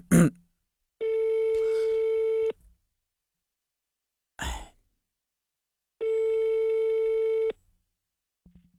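A telephone ringback tone sounds while a call is being placed: two long, steady, buzzing tones, each about one and a half seconds, separated by a long gap. Short noisy bursts occur at the start and between the tones.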